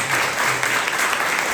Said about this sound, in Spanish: Yo creo que se merecen un gran aplauso como padres.